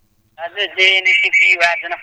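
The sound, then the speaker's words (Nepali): A radio plays in the background of a phone caller's line during a call-in, coming through as a thin, telephone-filtered voice with sustained, tuneful tones. It runs steadily and fairly loud for nearly two seconds after a brief silence. “साइडमा radio बजिरहेको छ है. अलिकति सानो पारिदिनुहोस् है.”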